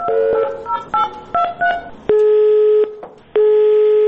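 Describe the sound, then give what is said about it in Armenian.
Telephone keypad tones dialing a hotline number published by a defense army: a quick series of short, bright beeps, then two long, steady line tones separated by a brief gap. “զանգահարում էինք նշված հեռախոսահամարով, որը պաշտպանության բանակն էր հայտարարության մեջ գրել, փորձենք նորից, հասկանանք ինչպես է աշխատում թեժգից այս հեռախոսահամարը առհասարակ”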